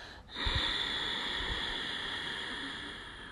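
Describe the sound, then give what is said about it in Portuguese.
Long exhale through both nostrils during a guided breathing exercise: a soft, steady breathy rush that starts abruptly and continues for about three seconds, tapering slightly, with no talk over it. “Expira longo de uma vez só por ambas as narinas.”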